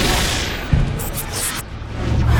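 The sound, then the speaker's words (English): A loud sci-fi laser explosion sound effect, a dense roar of blasts with a sharp low thump early on and continuous rumbling, crackling noise throughout. “Laser explosions.”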